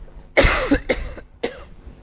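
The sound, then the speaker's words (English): A person coughs three times in quick succession, each a harsh, breathy burst, the first longest and loudest, with brief gaps between them. “Excuse me, I'm just going to cough.”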